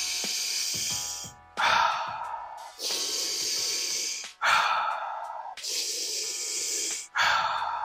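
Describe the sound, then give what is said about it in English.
Deep, airy breaths during a stress-reducing breathing exercise, with six long breaths of about a second each following one another in a steady rhythm, forceful exhales among them, with no talking. “Let it out with stress on the exhale.”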